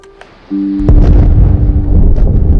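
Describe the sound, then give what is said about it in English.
Massive explosions at night break out as a deep, heavy boom just under a second in, then swell into a loud, continuous rumbling roar that holds to the end, with a steady low hum beneath it just before. “At night, massive explosions light up the darkness.”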